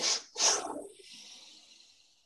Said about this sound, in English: Again, twice in the nose, pull, pull.